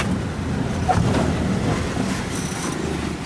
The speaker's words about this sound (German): Das Verstauen der Esssachen gestaltet sich schwierig, denn der Wagen rumpelt heftig durch die unzähligen Schlaglöcher.